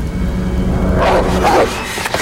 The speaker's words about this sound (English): A black dog emerges from the shrubbery, its yellow eyes glowing. It flattens its ears.